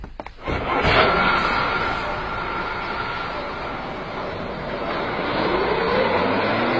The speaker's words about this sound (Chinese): 车装好了。 发车吧。 好的。 来，发车。